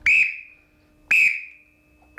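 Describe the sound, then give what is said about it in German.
Two sharp, shrill blasts on a small black trill whistle that a rowing coach blows to call spurts. Each blast starts loud and piercing, then trails off into a thinner fading tone, with a short gap between the two. “Ja, scharfe Trillerpfeife. Gibt's die noch? Ja, die gibt's noch. Das war tatsächlich so eine schwarze kleine Trillerpfeife.”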